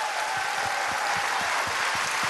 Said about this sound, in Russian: Аплодисменты дирижеру нашому.